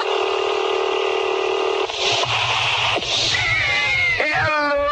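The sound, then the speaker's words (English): A telephone handset is lifted to a steady dial tone that holds for nearly two seconds, then cuts off. A few sharp dialing clicks follow, then wavering, warbling electronic tones rise at the end, loud and without voices. “We're lifting the phone. Dial tone and WGR55”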